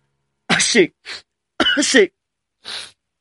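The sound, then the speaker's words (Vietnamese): Two loud sneezes imitated by a human voice, each a strong voiced burst followed by a short, breathy puff, with a pause of about a second between them. “Hai tiếng hắt hơi kinh động vang lên”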